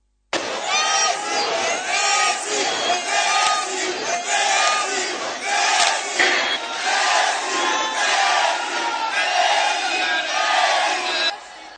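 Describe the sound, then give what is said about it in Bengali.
Angry football fans in a packed stadium gallery chant a slogan demanding a star player. A dense, loud roar of many voices holds steady for about eleven seconds, swelling and dipping in rhythmic surges. “একসময় ক্ষুব্ধ ফুটবলপ্রেমীরা we want Messi slogan দিতে শুরু করেন।”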